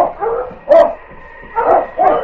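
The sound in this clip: Sled dogs, huskies, bark in a run of several sharp, mid-pitched barks and yips separated by short gaps, loud and with no other sound.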